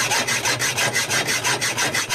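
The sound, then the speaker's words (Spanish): A handsaw cuts through wood in many quick, even back-and-forth strokes, a loud, rhythmic rasping with no voices. “El serrucho en acción, sí, señor.”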